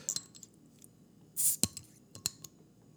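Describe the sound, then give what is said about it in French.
Glass bottle being handled and opened on a table: faint, sparse clinks and taps with one brief, soft breathy burst in the middle. “je vais rester sur ma table pendant que vous m'entendez gosser avec la bouteille. Et puis, la voici, donc elle est ouverte.”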